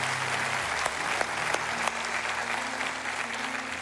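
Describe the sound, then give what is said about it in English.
Congregation applauding in church to welcome new members, a steady, dense wash of clapping that holds at an even level for the whole stretch, with only a few sharper claps standing out. “put your hands together and welcome the newest members of the body of Christ.”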